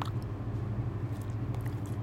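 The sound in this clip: Soft biting and chewing into a thick filled sandwich bread stuffed with egg filling and Napolitan spaghetti: quiet, muffled mouth sounds with faint moist crunches throughout.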